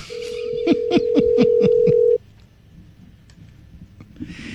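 A telephone ringback tone on an outgoing call that goes unanswered: a single steady, mid-pitched tone holds for about two seconds, then cuts off abruptly, leaving quiet line noise.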